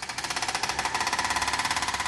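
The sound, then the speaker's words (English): A hydraulic drill hammers at a construction site in northern Paris where a steel-and-glass skyscraper is planned. It makes a rapid, evenly pulsing rattle that stays steady and moderately loud throughout. “A hydraulic drill rattles on a site in the north of Paris where there'll soon be a skyscraper made of four stacked steel and glass boxes.”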